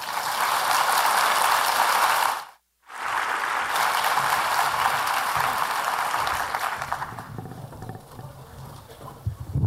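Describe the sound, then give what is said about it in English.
Dense audience applause welcoming a speaker to the stage at a conference session: a loud, steady roar of clapping, broken by one short silent gap, then thinning out toward the end. “And without further ado, please put your hands together and welcome Malika.”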